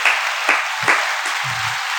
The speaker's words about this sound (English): Round of applause for W man.